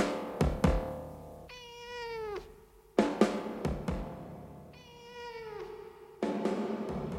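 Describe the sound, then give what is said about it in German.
A tomcat meows twice, each a drawn-out, clearly pitched meow that slides down at its end, with a few sharp short knocks or clicks around and between the calls. “Ich glaube, Sie kennen noch nicht seinen Namen. Der Kater heißt Abelard.”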